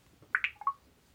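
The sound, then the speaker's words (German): Faint electronic blips from tapping the record button in a phone's voice memo app: four quick tones, two higher ones followed by two lower ones, then quiet. “Sprachmemos. Aufnahme. Taste. So, ich tippe jetzt auf Aufnahme.”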